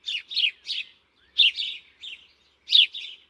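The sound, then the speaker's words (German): A blackbird sings in three short bursts of high, bright chirping notes, each burst two or three quick notes, separated by brief silences. “Wie friedvoll ist es doch, in diesen blauen Stunden dem melodischen Gesang einer Amsel zu lauschen.”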